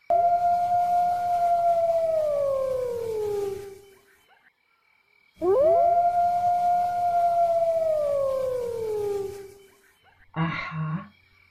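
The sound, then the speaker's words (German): Two long wolf howls, each a sustained tone that holds steady and then slides downward in pitch over about four seconds, separated by a short pause and followed by a brief, rougher call. “Wen höre ich denn da? Das ist der Wolf.”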